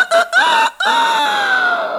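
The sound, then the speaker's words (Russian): A rooster crows loudly in a fairy-tale scene at about 3 a.m. The call is a single harmonic crow of about two seconds, with short choppy notes and then a long, gradually falling tone. “Около 3 часов ночи петух проснулся, взмахнул крыльями и оглушительно пропел свое веселое”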